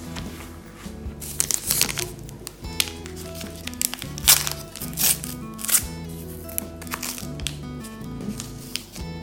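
A paper package of local sweets shaped like sliced pear is opened, with many quick crinkles, crackles and tearing sounds.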